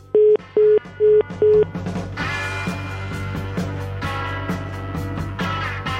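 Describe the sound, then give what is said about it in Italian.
Four short, steady beeps of a telephone line tone after a caller hung up on a phone survey, evenly spaced and alike in pitch, then giving way to a dense, busy background of other sound. “Ha buttato giù, dici, questo qua? Mi pare di sì, proprio non ha gradito la domanda.”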